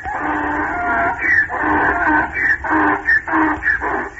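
A person imitates a donkey's bray while telling a farm story: a loud, wheezy run of rhythmic bursts separated by short gaps, sounding harsh and nasal.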